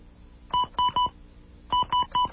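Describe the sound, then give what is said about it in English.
Telephone keypad dialing tones sound on a second phone line: a quick group of three beeps, a pause, then another group of three, each short and clear. “I'm going to grab a second line here. Dial it again.”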